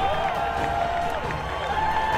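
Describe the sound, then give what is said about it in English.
Baseball fans cheer in the stadium during a late-inning A's–Royals game with the batter down to his last strike. A steady crowd roar mixes with clapping and scattered voices. “The A's bench jumping up with every pitch. The fans on their feet, cheering with every pitch from Beard.”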